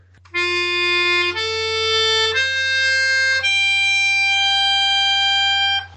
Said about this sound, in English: Here, I have my melodica right here. I'll just play it. F, A, C, G. Sound like this.